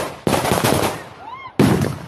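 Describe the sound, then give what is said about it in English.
Police firing rubber bullets at makeshift homes during a forced eviction in São Paulo: loud, harsh bursts of rapid crackling gunfire that break off briefly and then resume abruptly. “In this YouTube video of a forced removal in another part of Sao Paulo, police are firing rubber bullets toward a cluster of makeshift homes as a man rushes an elderly woman out of the way.”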